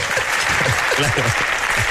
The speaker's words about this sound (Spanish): Te han aplaudido porque el arroz es mejor que la paella, ¿no?